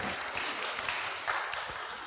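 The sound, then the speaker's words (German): Audience applause, a dense, steady wash of many hands clapping that holds at an even level for about two seconds. “Danke. Ja, danke, Applaus, ja.”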